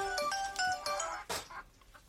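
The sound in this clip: A mobile phone ringtone plays quietly as a short melodic pattern of bright, clear tones that repeats a few times before fading into soft background noise.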